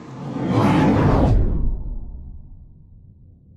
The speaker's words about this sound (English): There are meteors falling from the sky, and if you don't move, one of them is going to hit you on the head.